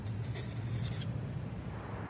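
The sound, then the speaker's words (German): Faint scratching of a pen writing on paper: a soft, continuous, dry scraping over a low background hum. “Hoffentlich holt sie auch einen Zettel und Stift. Nicht, dass ich es jetzt ganz versaut habe. Ich schreibe auch Hi.”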